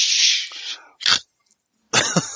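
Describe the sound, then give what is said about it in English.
A person clears their throat with a few harsh, raspy bursts: a long breathy rasp, then two short, gruff rasps with silent gaps between them. No speech is heard. “Well, I can't clear my throat.”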